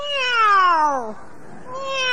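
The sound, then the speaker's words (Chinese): A human voice imitates a cat's meow: two drawn-out, tonal meows. The first slides downward in pitch and the second begins after a short pause and is cut off at the end. “喵，喵， 这是猫。”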